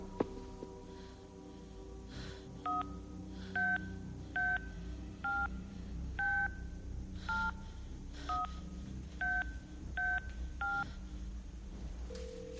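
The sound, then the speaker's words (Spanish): Keypad tones from a flip-style mobile phone being dialed: ten short electronic beeps at slightly uneven intervals, faint over a low steady background rumble. “Tiene la tapa abierta y la pantalla encendida. Acaba de teclear un número.”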